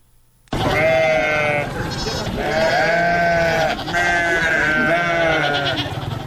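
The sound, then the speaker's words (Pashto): Indian Gulabi-breed goats bleat on a small farm in Kandahar, their loud, wavering calls overlapping almost continuously in several long, strained cries. “د کندهار پټن ولسوالۍ کې د بزو یا وزو په دې کوچني فارم کې د ګلابي په نوم هندستاني نسل چلويش بزې ساتل کیږي.”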